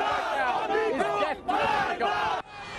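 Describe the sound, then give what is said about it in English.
Crowds at the funeral procession for Ayatollah Ali Khamenei in Tehran chant together in loud, surging bursts of massed voices, broken by short pauses. “the procession commemorating the late supreme leader Ayatollah Ali Khamenei made its way through Tehran for hours. The crowds surrounding the trailer transformed into a giant hearse.”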